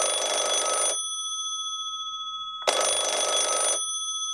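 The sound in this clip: A telephone rings for a caller on line two of a radio call-in show: two long, bright electronic rings, each about a second, separated by a short silent pause, with no talk.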